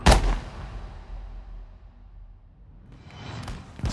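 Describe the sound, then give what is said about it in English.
A gunshot sound effect cracks loudly at the start and rolls away in a long, fading rumble, followed by another sharp report just before the end. “Then someone else, though no one is quite sure who, fires a shot.”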